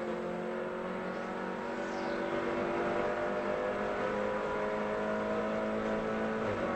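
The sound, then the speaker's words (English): Race car engine noise at Sebring during a sports car race: a steady, fairly faint drone with sustained harmonic whine at a constant level and an even pitch throughout, with no voices. “Russell Ward in 12th position, just going past us a moment or two ago”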